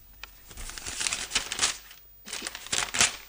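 Paper being torn up, heard as two faint bursts of crisp, crackling tearing and rustling separated by a short pause.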